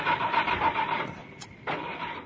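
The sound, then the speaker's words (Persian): A stalled car's starter cranking in rhythmic whirring pulses, which stop briefly and then start again. “ماشین روشن کن را بیفتیم.”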